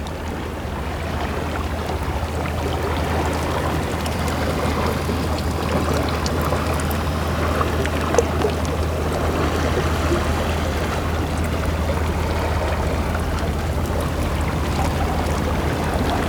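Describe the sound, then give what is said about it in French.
Gentle water laps against rocks set in a row along a small jetty, a soft, steady wash of small splashes and trickles that holds an even level throughout. “ces doux clapotis qui effleurent les rochers disposés en épi le long d'une petite jetée.”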